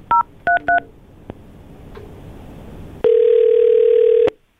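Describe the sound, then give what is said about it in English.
Telephone dialing: three short two-tone keypad beeps in quick succession, a quiet pause, then a loud, steady, unbroken telephone tone that holds for over a second before cutting off. “Let's just get to the dialing.”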